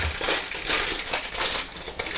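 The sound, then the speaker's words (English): A crisp packet is folded up, its plastic crinkling and crackling in a continuous dense rustle with no distinct separate events. “I'm going to fold the crisp packet up and put it away.”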